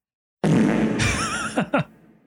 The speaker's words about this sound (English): it's upsetting how much the fart sounds genuinely just make me laugh. It's, they're very funny, especially because this one is called Fart with the Reverb.